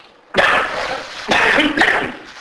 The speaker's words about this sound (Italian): Non mi devo scaldare troppo, sennò mi viene la tosse.